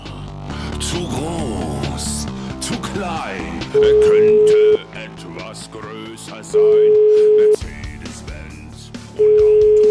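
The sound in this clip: Steady telephone tones sound while a call is being placed, three evenly spaced, level beeps of about a second each, laid over a busy music bed.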